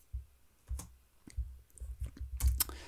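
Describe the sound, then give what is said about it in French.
Keystrokes on a computer keyboard: a series of irregular, sharp clicks, sparse at first and then closer together, with no talking. “Tac, tac, je tape juste un truc.”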